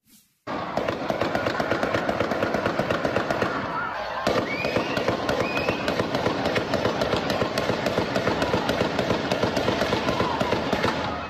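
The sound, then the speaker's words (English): Gunfire from a high-powered rifle shot from a building roof at spectators: a rapid, sustained volley of sharp cracks that runs almost without pause, with a brief dip near the middle before it continues at full intensity. “Video captured the moment the shots rang out, and we do want to warn you, this is very difficult to watch.”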